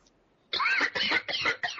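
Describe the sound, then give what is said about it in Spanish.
A rapid run of harsh, rasping coughs over a poor-quality remote microphone, loud and slightly distorted, in short bursts close together. “Esa tos chida ahí.”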